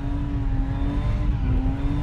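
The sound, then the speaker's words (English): A car engine droning as the car spins in donut circles in an arena, heard from inside the car: a loud, steady, constant-pitched hum over heavy low rumble, with a slight dip partway through. “We're basically just going around in donut style circles, and my body is pressed against the left hand side of this car.”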